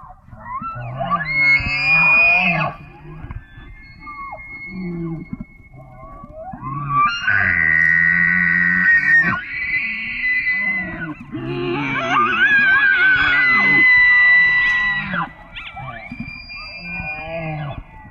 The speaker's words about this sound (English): the bull elk makes what I personally consider to be one of the coolest, most unique noises called bugling. For those listening who haven't heard it, here's a sample of what it sounds like.